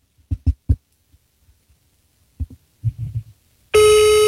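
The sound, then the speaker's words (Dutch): An outgoing call's ringing tone sounds while phoning a colleague: a loud, steady, buzzy tone starts abruptly near the end, after a few soft, low knocks and thumps. “Hij belt nu onze collega na.”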